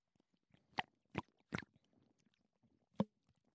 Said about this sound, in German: Trinken wir einen Schluck Malzbier und wir trinken es auf Albert. Denn Albert hat bei uns ein Paket gebucht. Muss ich erstmal trinken.